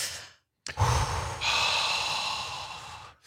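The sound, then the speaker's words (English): A deep, collective cleansing breath taken together by a group: after a short silence comes one long, breathy rush of air that lasts about two and a half seconds and then fades. “we're going to all join together and hold hands and take a collective cleansing breath.”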